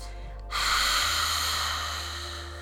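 A forceful exhale, breath blown out hard in one long push that starts abruptly and holds for about two seconds before slowly tapering off, with no talk.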